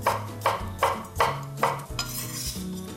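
Knife slicing a halved cucumber into pieces: a series of sharp, rhythmic chopping strikes that ring against a hard surface, steady at first and then quicker and softer toward the end, with no voices.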